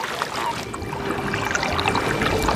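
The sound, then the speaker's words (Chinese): Splashing, churning water as an animal plunges headfirst into a lake, a steady, moderately loud wash of water without one distinct impact. “它奋力向前，终于一头扎进了湖里。”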